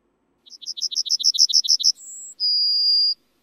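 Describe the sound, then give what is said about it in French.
A yellowhammer singing alone: a rapid run of many short, high, scratchy notes, then two drawn-out whistled notes, the second lower and clearly longer. “Et ce que vous entendez maintenant, c'est le chant d'un bruant jaune et il se fait de plus en plus rare à nos oreilles.”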